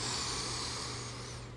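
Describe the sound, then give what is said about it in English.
A deep, long inhale taken during a calm breathing meditation: a soft, steady, airy hiss of breath that fades slightly toward the end. “you might take a deep, long inhale”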